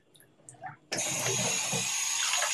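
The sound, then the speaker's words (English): Water gushes from a lever-style faucet into a container, starting abruptly after a short quiet stretch with a few faint knocks, then settling into a steady, loud rushing hiss that holds until the end. “Let me put some water in this.”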